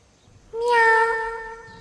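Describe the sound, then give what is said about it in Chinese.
A person imitates a cat's meow with a single drawn-out mew that swells in at the start and holds its tone before fading out, heard alone against near silence. “展昭叫了一声之后，听到一声猫叫，还带着一股人味。白玉堂望了望天，一听就知道是人学着猫叫的。”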